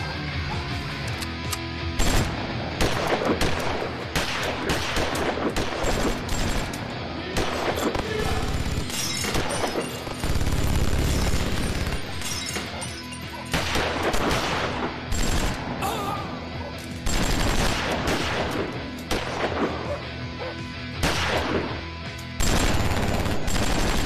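Gunfire from a film soundtrack: rapid automatic bursts and sharp single shots crackle loudly and almost without pause across about 24 seconds, with only brief gaps between volleys.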